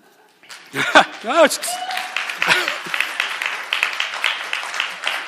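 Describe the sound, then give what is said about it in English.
Church audience applauding the preacher after a sermon: a voice speaks briefly, then many hands clap in a steady, moderately loud patter that continues to the end. “you're weird people that you're applauding that.”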